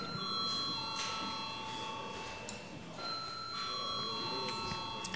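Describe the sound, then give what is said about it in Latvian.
A bell rings in a council session to call a vote, giving a faint, steady electric ringing tone that breaks off briefly midway, then carries on to the end. “Lūdzu zvanu.”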